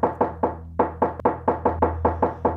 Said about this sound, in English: Magpie starts feverishly knocking on the door.